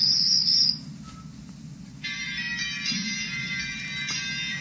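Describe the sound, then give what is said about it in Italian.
Crickets chirping in a shrill high-pitched trill that breaks off briefly, then returns as a steady buzzing chorus over a low background hum. “i grilli. Li senti?”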